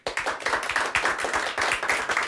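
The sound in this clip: A small audience claps at a book reading about the DDR, with many crisp, fairly even hand claps in a steady patter and no talk.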